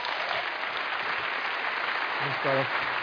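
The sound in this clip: An audience applauds to welcome a speaker: steady, dense clapping that continues unbroken for the whole stretch, with a voice briefly surfacing near the end.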